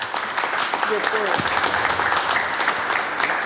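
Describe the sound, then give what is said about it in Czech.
Steady audience applause at a medal presentation, a dense, continuous wash of clapping throughout, with a voice briefly audible over it. “No já myslím, že to si zaslouží potlesk,”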